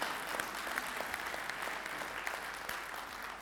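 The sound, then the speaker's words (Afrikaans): Audience applause at an event celebrating a food market fundraiser, a dense, steady wash of many hands clapping that holds at an even loudness for the whole stretch with no voices standing out. “Kan ons net 'n hande klap kry?”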